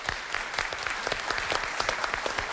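Applause for a young contestant on a quiz competition show: a modest crowd clapping with many distinct, crisp hand claps in a quick, uneven patter, fairly soft overall and without talk.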